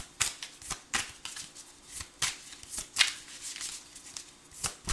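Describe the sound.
Tarot cards being shuffled and drawn: a run of many crisp, riffling bursts at a fairly regular pace, fairly faint overall, with no talk.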